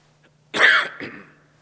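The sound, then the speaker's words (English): Coughing and throat clearing from a tickle in the throat: two rough, husky bursts, the first longer and louder, the second shorter, heard alone without talk. “The tickle in my throat is catching up to me.”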